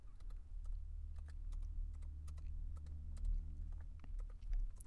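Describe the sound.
Rapid, faint typing on a computer keyboard as a Google search is entered, many quick clicks in an uneven stream over a low steady hum.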